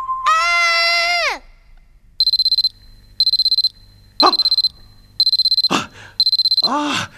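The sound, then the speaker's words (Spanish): An alarm clock rings in five evenly spaced bursts of rapid high-pitched electronic beeping. A long falling cry comes before it, and brief cries and thumps cut in between the later bursts. “¡El despertador! Parece que me quedé dormido esperando iniciar esta grabación.”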